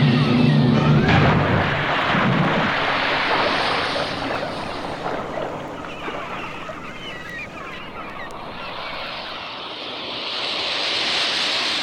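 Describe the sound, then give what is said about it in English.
Loud rushing and churning water surrounds a submerged boat. The dense, unbroken wash of noise fills the whole stretch, eases slightly midway and swells again toward the end. “Well, we're underwater.”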